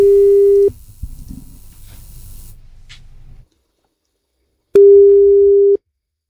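A telephone line rings as a radio station calls a listener: two steady, low, buzzing ring tones of about a second each, separated by a few seconds of faint line hiss and then silence.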